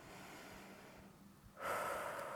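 A big breath in during a guided stretching exercise: a faint, airy inhale that starts abruptly after a near-silent pause and continues as a soft breathy hiss to the end.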